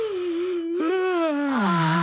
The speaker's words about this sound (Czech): Tak, holky a kluci, chce se vám spát? A zíváte.